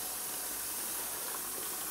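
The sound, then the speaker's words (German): Water being let into a zoo keeper's kitchen to thaw something by midday, a faint, steady hiss that runs without a break. “Jetzt lassen wir da ein bisschen Wasser rein, dass es bis heute Mittag auftaut.”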